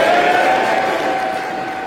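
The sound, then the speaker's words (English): Conservative MPs banging tables and cheering at the result of a party confidence vote: a loud, dense, continuous roar of noise that holds steady and eases slightly toward the end. “Conservative members of Parliament banged tables and cheered last night in approval at the result of their secret ballot.”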